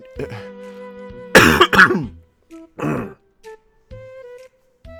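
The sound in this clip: Throat clearing: two harsh, loud bursts in quick succession, with quieter vocal noises and a few short murmurs before and after.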